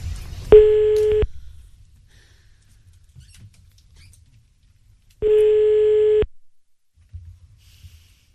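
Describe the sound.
Ringback tone of an outgoing telephone call: two steady, pitched beeps about four and a half seconds apart, with faint low rustling in the gaps.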